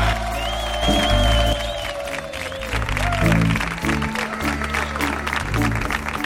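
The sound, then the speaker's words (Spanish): A studio audience at a live recording in an auditorium applauds in a steady, loud wash of clapping, with voices and shouts mixed into the crowd noise. “Un público que tenemos para la grabación de hoy que suena así de potente.”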